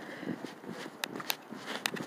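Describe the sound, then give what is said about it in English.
Footsteps going down steps: a few crisp taps, roughly evenly spaced, over a soft low background rustle. “Okay, we're gonna go down the steps.”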